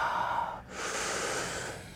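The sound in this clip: A deep breath is drawn in during a stretching workout: after a brief pause comes a single long, airy inhalation, a steady breathy rush lasting over a second.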